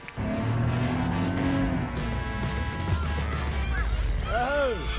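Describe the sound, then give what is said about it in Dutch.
A Ferrari race car driving through Monaco, with a steady, loud engine roar and a passing-car swell, then several sharp tire squeals that rise and fall near the end. “Zij rijdt nu met die bril op, hè? Ja, in zijn Ferrari door Monaco, ja.”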